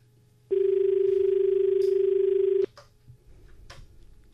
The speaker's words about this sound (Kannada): ಸಾಕಷ್ಟು ಕರೆಗಳು ಬರ್ತಾ ಇವೆ, ಕರೆ ತಗೊಳ್ಳೋಣ.